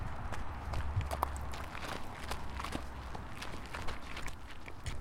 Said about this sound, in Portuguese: Os passos rápidos marcam o início da corrida.